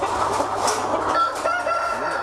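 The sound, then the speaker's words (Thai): Pradu Hang Dam chickens cluck and crow inside a chicken house on a meat-chicken farm holding about 500 birds per house, making a steady, dense chorus with a drawn-out, higher crowing note through the middle. “ในส่วนของโรงเรือนเลี้ยงไก่เพื่อจำหน่ายเป็นไก่เนื้อพี่ซิมโอนมีทั้งหมด4โรงเรือนด้วยกันเลี้ยงไก่ไว้โรงเรือนละ500ตัวครับ”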